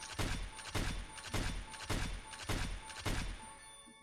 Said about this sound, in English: Damn, it took him 7 shots to take down that person, but 7 shots means 7 free games, baby.